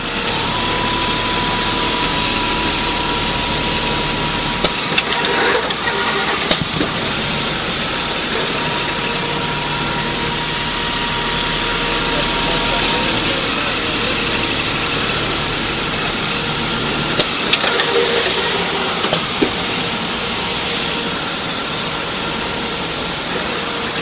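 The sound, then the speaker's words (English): A cloth cutting machine runs with its blade cutting at high speed, giving a steady, continuous mechanical drone with a faint sustained whine. A few brief sharp clicks stand out near the middle and again later. No one talks. “So I'll let you listen to the cutting machine as it operates.”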